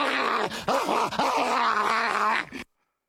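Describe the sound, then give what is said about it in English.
A human voice imitates a tiger growling: a rough, low, sustained snarl lasting about two and a half seconds, with a few wavering dips, then cutting off abruptly. “That tiger just looked at it and just went.”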